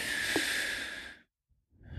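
A slow, deep breath in makes a long, steady, airy rush that lasts over a second. It stops in brief silence before another breath starts, taken as part of a calming walking exercise.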